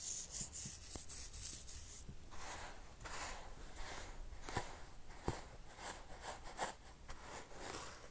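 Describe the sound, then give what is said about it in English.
Sand pouring into a box held on a lap: a faint, steady granular hiss and rustle with a few small scraping ticks scattered through it. “Here, we'll get the sand on my lap. It's in a box, so it's not just all over my lap.”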